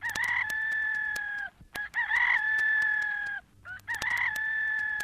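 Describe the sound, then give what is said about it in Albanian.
A rooster crows three times in a row, each call a loud, long, sustained high cry with little variation, the third running to the end with no voices. “rishta se mohoj e me njëherë kënoj gjeli.”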